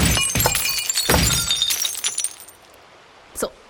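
An object is smashed with a wooden mallet, a loud shattering crash with bright scattering fragments that tinkle and fade over about two seconds, followed by one short, separate knock.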